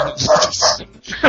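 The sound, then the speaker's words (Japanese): A dog barking: a few loud, sharp barks in quick succession, a short pause, then one more bark. “犬吠えたよ。犬吠えたよ。”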